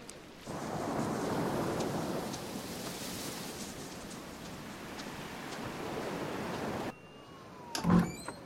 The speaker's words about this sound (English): lifting her face to the wind and the rain